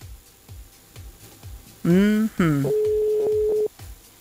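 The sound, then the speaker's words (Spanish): A telephone ringback tone sounds during a call as one steady, level beep of about a second. Louder voiced sounds and rhythmic background chatter come before it. “Pero está sonando. A ver si tenemos suerte y nos atienden. Veamos. Está sonando.”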